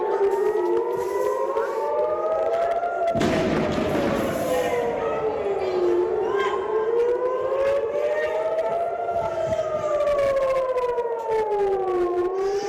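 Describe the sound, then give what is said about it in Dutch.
Air-raid sirens in Tel Aviv warn of rocket fire from Gaza: several loud sirens wail together, each tone slowly rising and falling in long overlapping cycles throughout. “Vlak voor die beschietingen klonken in Tel Aviv sirenes. Het teken voor inwoners om naar de schuilkelders te gaan.”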